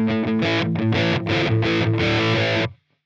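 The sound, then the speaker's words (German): Loud, distorted electric guitar played through a doubler effect like a TC Electronic Mimiq, meant to sound like several guitars with slight delay: rhythmic chugging chords with steady accents, then an abrupt stop. “Ich denke, das wird so ein Doubler sein, wie von Mimic von TC Electronic.”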